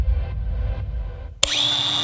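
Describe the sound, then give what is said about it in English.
Power tool, an angle grinder or multi-tool, switching on with a sharp click and quickly settling into a steady, high-pitched whine, after a stretch of low rumbling noise. “Oh, Milwaukee Angle Grinder. Oh, the Makita Multi-Tool. Know your power tools?”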